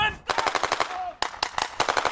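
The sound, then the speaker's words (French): Rapid automatic gunfire as soldiers in winter camouflage rush from a tank toward an enemy hidden in snow during a military exercise in northern Norway. Two loud strings of sharp, crackling shots are separated by a brief pause. “des soldats en treillis de camouflage hivernal se précipitent vers leur cible en faisant crépiter leurs armes.”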